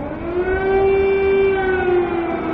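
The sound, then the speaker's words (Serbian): Air raid sirens sound over Kyiv in a loud, steady, sustained wail that holds one pitch with faint harmonics above it. No voices are heard. “Sirene za vazdušni napad su se oglasile u glavnom gradu Kijevu”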